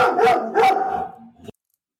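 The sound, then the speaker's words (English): A dog barks at a man arriving with a skip in the front garden: two loud, sharp barks, then a lower whining yip that cuts off abruptly, with no voices. “Neither does your dog by the sounds of it. Is that Finley, Kieran? Oh, yeah, yes, on. Yes, Finley has just seen a guy with a skip arriving in our front garden.”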